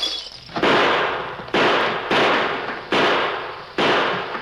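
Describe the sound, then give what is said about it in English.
Gunfire from rifles and six-gun revolvers in a Western shootout. Five loud, sharp shots crack out at uneven intervals, and each one trails off into a fading rush of noise. “Hey, that lead's coming up the floor. Keep shooting.”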